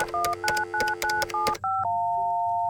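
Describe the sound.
Touch-tone telephone dialing for a collect call: six quick beeping key tones in an even rhythm, then a steady held tone that carries on alone.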